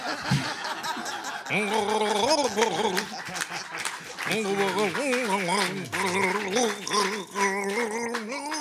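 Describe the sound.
A contestant on a gargling-singing game show gargles a pop tune, the bubbly, wavering pitch tracing a melody for several seconds while laughter runs underneath.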